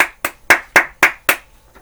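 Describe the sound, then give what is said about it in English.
Hands clap six times in an even, steady rhythm, each clap sharp and loud, followed by a faint seventh clap at the end; no voices. “I just want to clap it up for them one time.”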